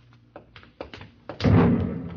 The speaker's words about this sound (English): That came from the ship. Another flare? No, that was an explosion.